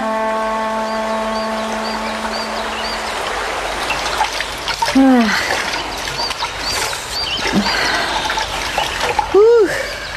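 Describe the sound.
Water splashes and trickles as laundry is washed by hand, a continuous wet sloshing with a few brief chirping tones rising over it.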